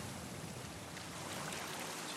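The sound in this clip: Soft, steady wash of sea waves, a faint continuous hiss of moving water with no distinct breaking surges.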